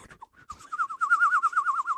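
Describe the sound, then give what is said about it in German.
A person imitates a bird with their voice: a few short high chirps, then a continuous, rapid warbling trill at a steady high pitch. “vögelisch ist ja auch nicht so schwer, glaube ich, das ist eher so piep, piep, piep, piep.”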